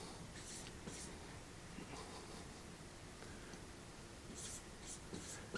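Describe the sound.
Someone writes out a Greek sentence by hand, producing faint, scratchy strokes in short bursts over a hushed background.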